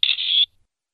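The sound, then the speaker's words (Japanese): A camera shutter sounds as restaurant staff take a photo of diners at a birthday celebration. It is a single bright, high-pitched electronic chirp lasting about half a second, heard alone with no voices. “すみません、写真を撮っていただけませんか？ かしこまりました。はい、撮ります。”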